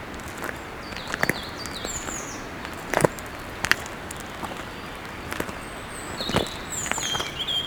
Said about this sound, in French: ces sons diffus accompagnent notre marche.